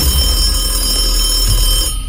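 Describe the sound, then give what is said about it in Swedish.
A telephone rings with an incoming call on a call-in show: a loud, steady electronic ringing of sustained high tones with no voices, cutting off just before the end. “vi har ett samtal på, mm. på luren, så vi, vi tar väl det.”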